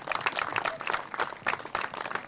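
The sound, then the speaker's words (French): Audience applause greeting a speaker, the president of a regional nature and environment association, at a public meeting on water issues. A short burst of dense, uneven clapping lasts about two seconds. “Applaudissez-le, s'il vous plaît.”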